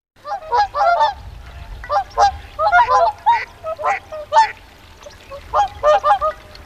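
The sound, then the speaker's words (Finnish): Swan honking calls: many loud, nasal honks come in irregular clustered bursts separated by short pauses, with no voices. “Jos Englannin torven soolo saa teidät kuvittelemaan joutsenen laulua, ette ole koskaan kuullut sen rääkäisyä tai puheliasta ääntä, joka kuulostaa tältä.”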